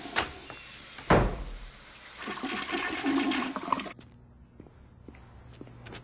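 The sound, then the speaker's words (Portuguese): A toilet flushes with a sharp thump followed by a loud rush and swirl of water that gradually drains away into a quieter trickle. “Vou jogar esta imundice na privada, que é o lugar dela. Se você quiser, pode nadar atrás dela.”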